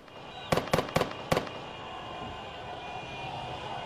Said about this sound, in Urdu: غزہ کی سڑکوں پر پچھلے 50 دنوں میں پہلی بار خوشی میں فائرنگ کی جا رہی ہے, فائر بندی کی خوشی میں.